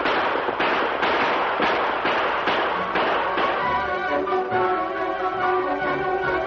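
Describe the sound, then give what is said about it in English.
Gunshots ring out during a stagecoach holdup, a rapid string of sharp, loud cracking reports fired in quick succession over several seconds. “The Lone Ranger and Tonto, following the stage, rode from cover when they heard the shooting.”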